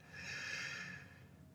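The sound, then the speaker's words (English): A single slow, deep breath, drawn in and let out as part of a breathing exercise. It is a soft, airy hiss that swells and then fades, faint and alone with no talk. “we're going to do our five deep breaths. You can do them with me. Breathing in and out.”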